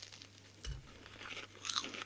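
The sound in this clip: A freshly fried dough ball coated in cinnamon sugar is bitten into, its crunchy fried arms giving one firm crisp crunch, followed by quieter crackly chewing crunches.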